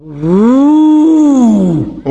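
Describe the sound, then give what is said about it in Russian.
A voice imitates a roar for a hare wrapped in matting with a bucket jammed on its head, trying to scare a wolf: one loud, drawn-out growling cry that rises in pitch, then slides down. “Увидел ведро, нахлобучил на голову. Да как заорет на волка!”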